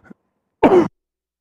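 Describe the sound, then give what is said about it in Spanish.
Throat clearing: one short, rough, gravelly rasp, preceded by a faint brief sound and followed by silence. “Perdón, soy peleando aquí mi garganta, perdón.”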